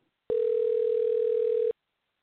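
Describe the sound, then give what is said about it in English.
A telephone ringback tone sounds on a call that goes unanswered: one steady, even tone lasting about a second and a half, heard alone with no voices. “she's got no reception, and it's just ringing.”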